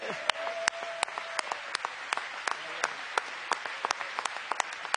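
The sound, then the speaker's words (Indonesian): Congregation applauding in a church: many sharp, irregular claps, with a faint voice in the first part. “Terpuji nama Tuhan. Mari bertepuk tangan kepadanya.”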